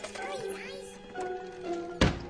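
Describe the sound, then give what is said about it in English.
A cartoon chipmunk leaping from a cupboard into a bowl of cheese balls lands with a single soft thunk near the end, over a high-pitched voice. “Alvin leaps from the cupboard into a bowl of cheese balls”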